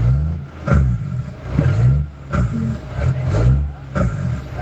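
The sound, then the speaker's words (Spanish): Truck engine brakes give a loud, rough, rumbling engine drone that surges and eases in a few uneven pulses, with a harmonic rattle throughout. “No escuchas esos frenos de motor, pues, papi.”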